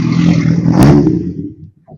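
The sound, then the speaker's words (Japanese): A car and then a motorbike pass along a road, a broad rumble of engine and tyre noise that swells to a peak midway and then fades into near quiet. “ちょっと車が通りますよ。お、バイクも通りますよ。”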